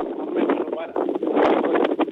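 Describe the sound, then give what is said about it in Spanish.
Strong wind blowing outdoors in Vallenar, heard over a phone line as a dense, continuous rushing roar that buffets the microphone in uneven surges. “¿Eso que se escucha es el viento? Viento, viento muy fuerte. Ya como una hora de viento muy fuerte, fuerte.”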